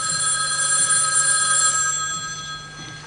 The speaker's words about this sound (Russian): А затем поднесли трубку к колонке и позвонили в эту аптеку.